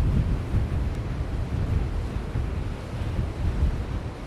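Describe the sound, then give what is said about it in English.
Wind blows steadily in wild Pembrokeshire, a continuous low, rumbling buffet of noise that swells and eases slightly throughout, with no voices. “It is a wild place, Pembrokeshire, where the wind's blowing.”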